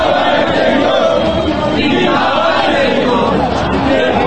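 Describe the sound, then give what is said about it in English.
A huge crowd of mostly men roars on a played video, a dense, unbroken din of many voices that stays loud and even throughout without pauses. “there's just a huge crowd of individuals and they're mostly all men”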